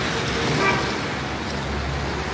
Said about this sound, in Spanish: Te tengo que llevar día de más tráfico de Madrid.